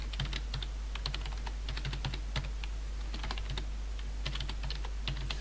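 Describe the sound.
Typing on a computer keyboard set to a Swedish layout: many quick, light key clicks in a steady, uneven patter at a fairly soft level, with no talking.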